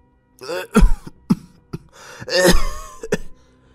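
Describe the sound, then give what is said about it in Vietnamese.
A man clears his throat in an outer room: a few rough, voiced rasps and short grunting bursts come in uneven succession, with no talk. “Tiếng hắng giọng của thầy Lã ở gian ngoài khiến cho bà Hoài lập tức dừng suy nghĩ.”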